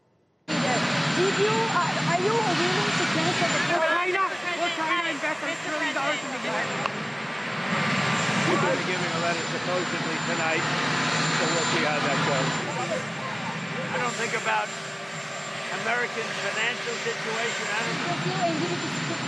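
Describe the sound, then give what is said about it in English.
A presidential helicopter's engine and rotor drone drowns out an impromptu press event, a continuous loud roar running throughout with people talking underneath it. “Key policy announcements made in moments like these, incomprehensible impromptu press events drowned out by the sound of Marine One.”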